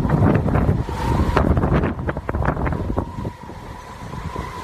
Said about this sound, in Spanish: la tramontana no sopla en Portbou vive la tramontana.